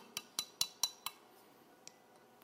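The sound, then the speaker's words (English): A spoon stirs a drink in a glass, giving five quick, bright clinks in a steady rhythm, then a couple of fainter, sparser taps, with no voices. “Now you got to stir it just a little bit. Just a little bit.”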